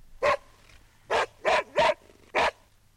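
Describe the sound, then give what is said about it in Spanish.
A dog barks five times, short sharp barks in an uneven rhythm: one, a pause, three in quick succession, then a final bark. Fairly faint, with no other sound. “Un perro. ¡Un perro!”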